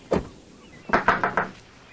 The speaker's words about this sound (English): She knocks on the screen door of a house.